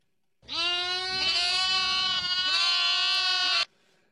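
A lamb bleating: one long, loud, quavering cry with a clear, harmonic tone, held for about three seconds with slight wavers before it stops abruptly.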